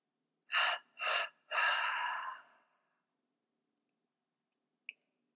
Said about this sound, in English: Inhale, renewal. Exhale what no longer serves you.